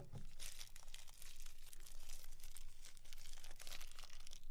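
Faint crinkling and crumpling of a wrapper as a little fortune is opened, a steady rustle that continues throughout with no talk.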